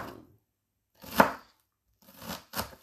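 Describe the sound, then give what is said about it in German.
A knife chops an onion into cubes on a board with a few crisp, separate strokes: one clear hit, a short pause, then two more close together. Nobody speaks. “So, Achtung, ich kann die Finger schneiden. So, dann haben wir die Zwiebel schon klein.”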